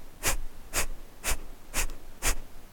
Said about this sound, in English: you take a deep breath in, and on your exhale, you forcefully contract your abdomen. So it sounds like this.